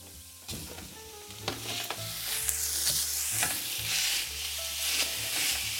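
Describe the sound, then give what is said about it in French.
Ground meat, about 350 grams, sizzles as it drops into a pan of frying onions and carrots and is broken up with a spatula or spoon: steady crackling frying with repeated scraping, stirring knocks throughout. “Et nous allons ajouter tout de suite la viande dans nos oignons et nos carottes.”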